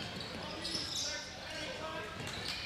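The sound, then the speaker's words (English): A basketball is dribbled on the court during a high school game, its bounces running beneath steady commentary and a low murmur from the gym. “Brandel at the left wing starts to dribble again.”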